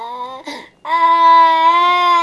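An infant cries loudly, with a short wail, a catch of breath, and then one long, sustained, steady-pitched cry that carries on to the end.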